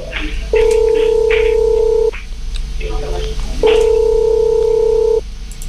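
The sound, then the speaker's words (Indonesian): Telephone call being placed to a listener from a radio studio: two long, steady ringing tones separated by a pause of a few seconds. “Kita akan coba hubungi Cici Cha-nya, nanti kamu bisa mengucapkan secara langsung.”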